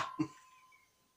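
A person clears their throat with a quick cough: two short, rough bursts in close succession, fairly faint, trailing off into quiet.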